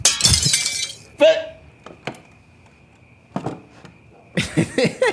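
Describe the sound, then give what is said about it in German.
A window's glass is smashed in, a loud crashing shatter with tinkling shards, followed by a few sharp knocks and clinks over quiet gaps, and then a voice speaking near the end. “Ich schlag das Fenster ein, das hörst du.”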